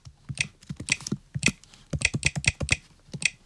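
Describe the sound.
Keystrokes on a Mac keyboard as a password is typed while encrypting an external disk. Many quiet, crisp key clicks come in an irregular run with short pauses between bursts.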